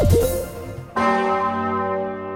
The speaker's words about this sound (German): In einer halben Stunde läutet sie wieder, die große Osanna-Glocke der Martinskirche in Kassel.